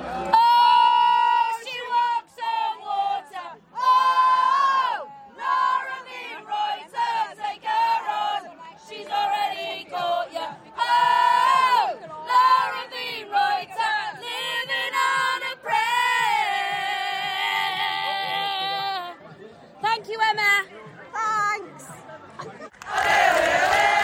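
Fans sing an Arsenal women's team chant together, a loud melodic chant in repeated phrases with short breaks between lines, ending in a noisy burst.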